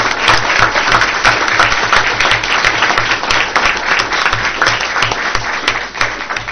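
Applause from an audience honoring teachers at a Teacher of the Year recognition evening for the 2008-2009 school year, a dense, steady wash of clapping that holds an even, loud level throughout with no voices above it.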